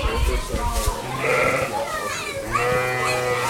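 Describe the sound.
Lambs and sheep bleat in a farm stable, several wavering bleats overlapping at high and lower pitches, with a steady low hum underneath throughout.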